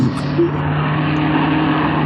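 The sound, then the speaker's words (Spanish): A car drives into the gardens, its engine giving a steady, loud low drone with a constant hum and no voices. “Cuidado, Solín, cuidado. Un auto ha entrado a los jardines.”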